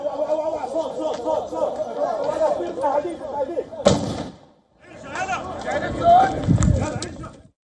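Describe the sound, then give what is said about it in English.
Troops fire a tear gas canister in the occupied West Bank: one sharp bang cuts through loud, agitated crowd chatter and voices, which continue afterwards. “Israeli forces were seen firing tear gas at Palestinians and journalists in the area of the”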